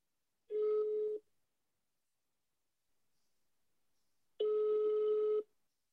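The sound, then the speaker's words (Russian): Ringback tone of an outgoing telephone call: two steady, evenly pitched rings, the second longer, separated by a long silent gap, with no voices. “Давай ей позвоним. Давай. Давай. Набирай.”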